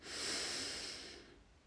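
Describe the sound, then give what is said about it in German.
A slow, deep breath drawn into the belly, heard as a soft airy rush. It swells quickly, then fades away over a little under two seconds. The breath is faint and there is no talk. “atme tief in deinen Bauch rein, sodass dein Bauch die Hand nach vorne drückt. Und noch ein letztes Mal.”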